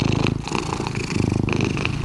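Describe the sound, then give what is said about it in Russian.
Cat purring: a steady, rhythmic low rumble that pulses continuously and evenly, heard on its own without speech. “Сейчас мы проведем мурчательную терапию. Мурчательная терапия идет.”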